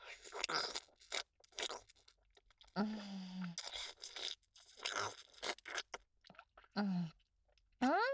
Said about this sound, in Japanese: 一回舐め出したら止まらなくて。